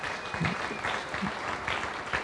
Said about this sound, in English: Why don't you put your hands together again for our visitors and our guests.